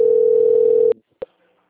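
A steady, loud low-pitched telephone tone plays while a call is being placed, then stops abruptly. A click and a brief tone blip follow, then near silence.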